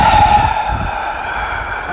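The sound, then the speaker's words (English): Breathing in through the nose and out through the mouth during a guided exercise, heard as a long, steady airy hiss lasting about two seconds, slightly stronger at the start. “So we're going to breathe through our nose. And out our mouths.”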